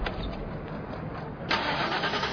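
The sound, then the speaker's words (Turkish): A car's starter motor cranks while the engine fails to catch, the battery seemingly giving out. The grinding whir runs continuously and grows louder and harsher in the second half. “Ben arabaya binip maaşa basayım bakayım çalışacak mı?”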